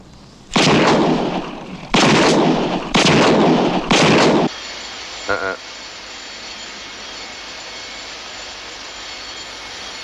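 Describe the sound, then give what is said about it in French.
Four heavy gunshots from a .44 Magnum revolver in a film scene boom out in quick succession, each a loud, sharp blast, followed by a steady low background hum. “Je sais ce que tu penses. C'est six fois qu'il a tiré ou c'est cinq seulement. Si tu veux savoir, dans tout ce bordel, j'ai pas très bien compté non plus. Mais c'est un 44 Magnum”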